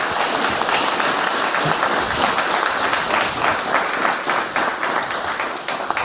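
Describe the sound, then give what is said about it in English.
Conference audience applauding a speaker: dense, steady clapping from many hands at an even loudness for the whole stretch, with no voices over it. “So just a quick round of applause for Bastian Eicher.”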